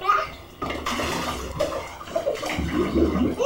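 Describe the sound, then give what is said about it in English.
A child splashes water in a bath, with repeated sloshing and splashing at fairly constant loudness and a child's voice mixed in. “Getting very splashy. Mommy does not want to be mopping up the floor.”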